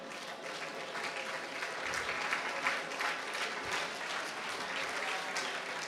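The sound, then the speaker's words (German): Audience applause at a start-up competition award ceremony in Berlin, as second-place winners come up on stage. The clapping is dense and steady, with no voices over it. “Jungs und Mädels, kommt hoch auf die Bühne und nehmt den Applaus mit.”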